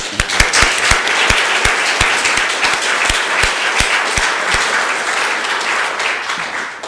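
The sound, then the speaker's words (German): An audience at a retreat applauds: a loud, dense wash of clapping with a few sharp individual claps standing out at a quick, uneven rhythm. “And let us give a clap for this KTV and Father Bouchard and all the people who are working there.”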